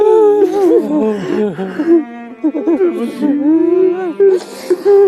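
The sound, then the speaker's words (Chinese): A mother cries during an emotional reunion with her son, her voice breaking into wavering, high-pitched sobs and whimpers in several uneven bursts separated by brief catches of breath. “来，好了好了，这个妈妈不哭了啊”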